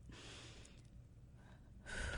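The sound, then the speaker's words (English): A deep breath is drawn in, heard as faint, airy rushes of breathing, with a softer sweep at the start and a louder one at the end. “So let's take a little bit of a breath so that we can get there comfortably.”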